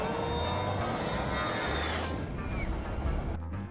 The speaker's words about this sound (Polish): Przenieśmy się teraz na jedno z najsłynniejszych lotnisk świata, aby podziwiać start Airbusa A320.